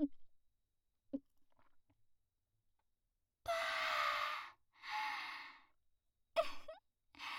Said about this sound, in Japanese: コーヒーにラーメンをトッピング。それじゃいただきます。